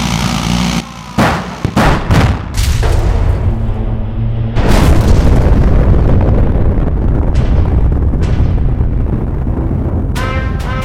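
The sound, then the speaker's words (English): Heavy video-game gunfire and booming blasts as support beams are shot out. A burst of sharp separate shots opens the stretch, then a long, loud, rumbling roar takes over, with a few more crackling shots near the end. “We gotta shoot out these support beams. All units fall back. We're going in for the big play.”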